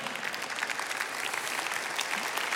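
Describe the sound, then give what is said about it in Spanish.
An audience at a religious sermon applauds with steady, dense clapping that holds an even loudness throughout, with no voices standing out. “no me aplauda mucho que ya no me queda tiempo.”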